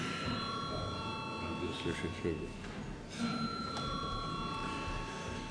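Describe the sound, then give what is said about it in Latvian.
A bell rings in a parliament chamber to call members to a vote. It makes a faint, steady electric ringing with sustained tones, over a quiet murmur of the room. “lūdzu zvanu”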